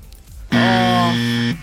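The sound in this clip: A game-show wrong-answer buzzer gives one loud, flat, raspy tone lasting about a second, starting and stopping abruptly.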